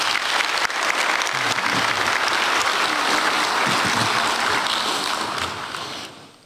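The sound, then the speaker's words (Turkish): Sustained audience applause at a sports club's general assembly: dense, steady clapping fills about six seconds without a break, then tapers away at the very end. “ve onlara kuvvetli bir alkış gönderelim.”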